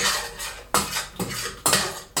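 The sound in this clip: Spoon stirring garlic and onion in a cooking pot while making chili con carne, a few quiet scraping strokes with brief clinks at an even, unhurried pace.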